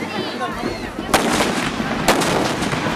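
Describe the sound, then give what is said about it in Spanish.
Two sharp blasts from homemade explosives tied to a sledgehammer head and slammed against the ground at a Mexican festival commemorating a battle. Both crack loudly over continuous background noise. “Las personas amarran explosivos caseros a la punta de su marro para estrellarlo contra el piso.”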